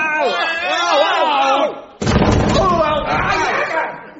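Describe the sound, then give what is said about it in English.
A wooden trapdoor under the tail of a wooden horse is kicked open with one loud sudden slam midway, preceded by shouting voices and followed by a burst of voices. “Stand back. I'll kick the trapdoor open.”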